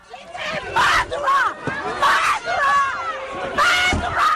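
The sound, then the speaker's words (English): Angry residents shout at the prime minister at the Grenfell Tower site in West London after the fire. Loud, overlapping yells come in repeated bursts. “This is the sound of a prime minister being greeted by residents at the site of a national tragedy last week.”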